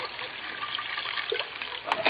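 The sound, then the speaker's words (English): Cognac being poured into a dish makes a faint, steady trickle with light splashy hiss, ending in a few brighter splatters. “Here's the cognac. I'll pour a little into your dish.”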